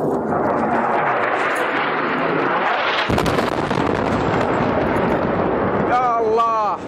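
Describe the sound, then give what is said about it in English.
Airstrike explosions during the war in Yemen form a continuous loud roaring rumble, broken by a sharp blast midway, with voices briefly heard near the end. “Airstrikes like this one are a daily event in Yemen as the Saudi-led war against Yemen seems to be escalating.”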